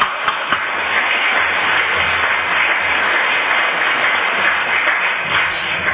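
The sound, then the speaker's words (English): Audience applause welcoming a speaker at a Valley Group meeting: dense, steady, slightly muffled clapping that continues without a break for about six seconds. “please give a warm Valley Group welcome to Chris.”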